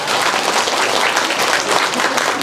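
An audience at a Buddhist teaching gives loud, dense applause, with many hands clapping steadily and without pause.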